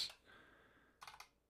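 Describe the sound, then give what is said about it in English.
Soft clicking of a computer keyboard as to-do notes are typed: a brief burst of keystrokes at the start, then a short cluster of quick taps about a second later, faint and alone. “I'm putting notes in my OneNote on like things to do.”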